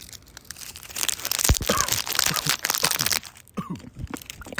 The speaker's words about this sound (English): This is a Smarties ASMR.